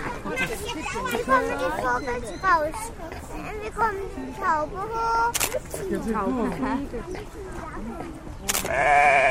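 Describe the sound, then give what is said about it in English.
Goat bleating outdoors near an emu, heard as several wavering, mid-pitched calls mixed with steady talking from people nearby. “Ah, there's an emu. And a goat.”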